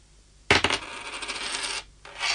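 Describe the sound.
A 2 euro coin dropped onto a hard surface: one sharp clink, then a bright metallic ring and wobble that holds for over a second before stopping. A second ringing starts near the end.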